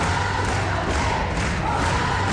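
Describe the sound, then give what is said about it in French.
A studio audience on a television set cheers wildly in a loud, continuous roar of many voices with no pause. “Et là, le choc, le public est déchaîné.”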